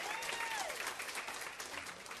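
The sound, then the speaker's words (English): Audience clapping for a woman invited to the front of a church-style talk, a quiet but dense, steady patter of many hands that eases off slightly toward the end. “Martha Kate, yeah, you can clap for Martha Kate.”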